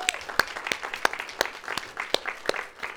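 A church audience at a one-year celebration claps for its volunteer teams, scattered, fairly faint applause with distinct individual claps and a few whoops mixed in.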